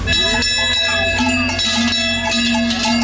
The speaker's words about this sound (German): Almabtrieb irgendwo.